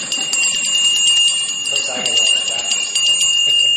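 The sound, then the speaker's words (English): A large mounted bell rings with a steady, bright, sustained tone throughout, while people talk over it. “And a single toll, you notice the big bell mounted there. People will ring that one time”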